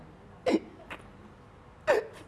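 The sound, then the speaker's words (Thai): A child hiccuping as a seizure eases: two short, sharp hiccups about a second and a half apart, with a faint click between them, over quiet background noise. “เริ่มสะอึกแล้ว”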